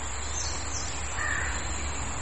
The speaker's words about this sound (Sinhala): කාක්කා කෑ ගහන සද්දේ අනිත්‍යයි.